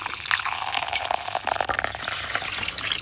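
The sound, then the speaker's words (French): Water runs over hair at a white salon wash basin, a steady continuous gush with soft splashing texture at moderate level. “Tu entends le bruit de l'eau qui coule sur les cheveux?”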